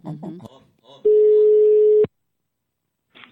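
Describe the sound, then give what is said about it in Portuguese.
A steady phone ringback tone sounds as an outgoing call rings out, one long, even note lasting about a second. Brief talk comes before it, then silence follows. “Vou ligar aqui, vou manter aqui pra Janete. Vamos ver se ela pega.”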